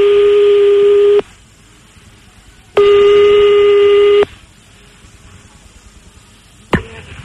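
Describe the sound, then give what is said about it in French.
Telephone tones while calling a number back: two long, steady electronic beeps separated by a pause, followed by a sharp click near the end. “on rappelle une dernière fois”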